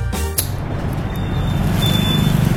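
Street traffic stuck in a jam gives off a steady low engine rumble and a broad road hiss. A few sharp clatters come near the start. There is no talking.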